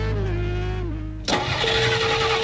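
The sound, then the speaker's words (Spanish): Car engine cranking but failing to start, a whirring mechanical drone that breaks abruptly into a louder, rougher noisy burst partway through. “Estoy aquí donde mi novia y no me arranca el carro.”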